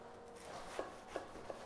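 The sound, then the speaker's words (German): A knife cuts the end off a roll of baked puff pastry, giving three soft, crisp crunches at an even pace. The cuts are faint and there are no voices. “Ich schneide das Ende mal ab”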